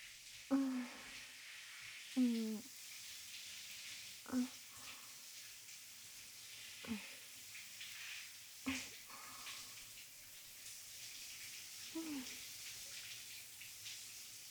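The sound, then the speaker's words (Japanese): Hot water is poured in a soft, steady, quiet hiss, with a few short vocal sounds rising over it at irregular intervals. “じゃあ、お湯かけていくね。”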